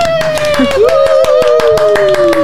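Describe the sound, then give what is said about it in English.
Applause for a tour guide on The Great Movie Ride: steady, evenly spaced claps carry on under a long, sustained vocal whoop that dips and then slowly drifts lower, with voices mixed in. “When I call action, don't forget the thunderous applause for your tour guide.”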